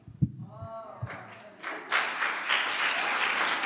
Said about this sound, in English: When you clap for men, you clap like this. And when you clap for God,